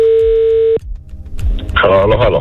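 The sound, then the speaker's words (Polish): A brief, steady telephone tone sounds while a number is being dialed and is cut off after under a second; a voice then starts talking. “ja wykręciłem numer, więc dzwonimy do Roberta Burnejki”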